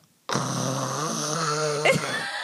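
A person imitates loud snoring with one long, rough, rattling snore lasting well over a second, which breaks off into a short throaty catch near the end.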